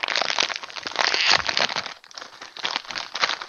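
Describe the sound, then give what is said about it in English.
Crinkling and tearing of a small bag of pretzels being opened as it rips lengthwise, a continuous crackly plastic rustle that swells and dips in loudness, with no talking. “What we're going to do is open our little bag of uh, pretzels here.”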